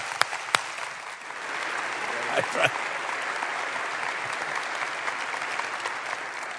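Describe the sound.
Applause rises from an audience at a worship gathering as a guest speaker is welcomed onto the stage. A few sharp isolated claps open it, then broad, sustained clapping fills the rest at a steady level.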